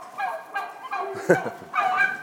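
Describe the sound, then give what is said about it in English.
Turkeys gobbling in a farmyard that also holds pigs, geese and hens: a few loud, rattling gobbles come in quick bursts. One sharp, throaty burst stands out in the middle, and no voices are heard. “Excuse me, turkeys, could you just wobble, gobble? Gobble, gobble.”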